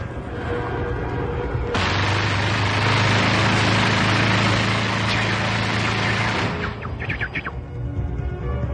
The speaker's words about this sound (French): Attention. Attention, il va tirer.